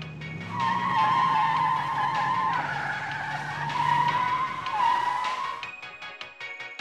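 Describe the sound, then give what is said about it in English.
A semi truck's tires squeal as it swerves and skids across the road, giving a loud, sustained screech that wavers in pitch for several seconds over engine noise before dropping away near the end. “The catgirl's driving is horrendous, and it isn't long before the semi is zigzagging all over the road.”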